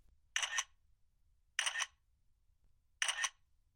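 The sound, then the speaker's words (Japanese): A camera shutter clicks three times while photographing a clogged toilet. The crisp, bright snaps are evenly spaced more than a second apart, with near silence between them. “状況確認のために、写真の方、撮らせてもらいますね。”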